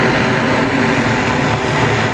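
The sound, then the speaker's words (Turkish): A Chinese-built electric vertical take-off and landing flying taxi lifts off unmanned. Its engines make a steady, loud, dense whirring drone with no pauses, and no voices are heard. “Çin tarafından geliştirilen elektrikli dikey kalkış ve iniş yapabilen uçan taksi, Astana semalarında başarıyla havalandı.”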